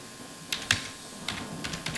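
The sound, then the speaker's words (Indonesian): Keystrokes on a computer keyboard as a name is typed: a few sharp, irregular clicks spaced across a quiet stretch, faint and unaccompanied by voices. “Sebentar Bunda, saya tulis tuh namanya ya”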